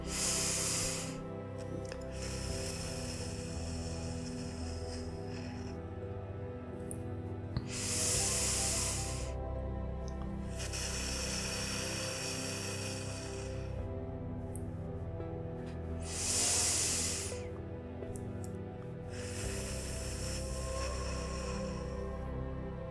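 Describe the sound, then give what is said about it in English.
Slow breathing in through the nose and out through the mouth during a guided meditation. Soft airy swells of breath rise and fall over a quiet, sustained musical background. “Inhale through your nose and exhale through your mouth 3 times. I'm going to be doing this with you.”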